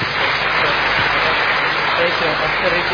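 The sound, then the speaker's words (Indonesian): Audience applause for the Buddhist monk Ajahn Brahm at a talk, a dense, steady wash of clapping that stays loud and even from start to finish. “Tepuk tangan buat Ajahn Brahm.”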